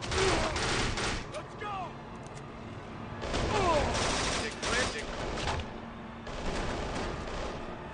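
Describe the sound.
Video game gunfire: dense, rapid volleys of shots come in three heavy stretches with slight dips in between, loud and continuous throughout.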